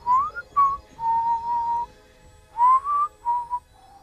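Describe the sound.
A human whistle from a recorded witness testimony: a series of short, clear, mid-pitched whistled notes in two groups separated by a pause, some gliding upward, with no talking.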